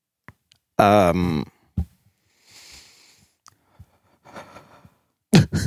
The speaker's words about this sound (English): Who breathed like that? That's the epitome of a ragged breath right there.